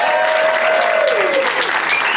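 A game show audience applauds to welcome guests, a dense, loud, sustained clapping that holds steady throughout.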